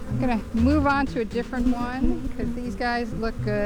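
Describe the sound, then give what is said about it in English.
Honeybees buzz at a backyard beehive, a steady insect drone running beneath a man's voice as he talks throughout. “neighborhood sounds like this from a backyard beekeeper”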